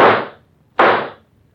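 Two gunshots, each a sharp, loud crack with a short decaying tail, the second coming just under a second after the first, with quiet between them.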